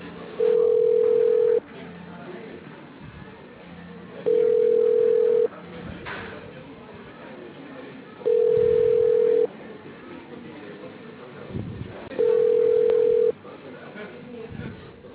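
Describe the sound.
Ringback tone of an unanswered telephone call: four steady, medium-pitched beeps of about a second each, evenly spaced a few seconds apart, with faint line noise between them.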